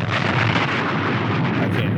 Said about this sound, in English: Drop a bomb for that.